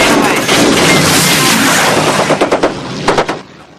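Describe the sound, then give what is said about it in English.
Machine-gun fire comes from the ball turret of the Memphis Belle bomber. A loud, continuous roar gives way to rapid, sharp bursts of shots, then trails off at the end. “Rascal fires from the ball turret. A German plane is heading straight for the Memphis Belle.”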